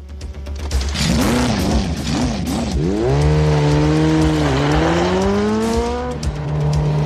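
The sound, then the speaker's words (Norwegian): A car driven hard in a film scene, its engine revving up and down, then climbing into a sustained high whine that dips once and carries on. “Jeg fikk skikkelig flashback til den lyden og bare sånn grisete kjøring, liksom.”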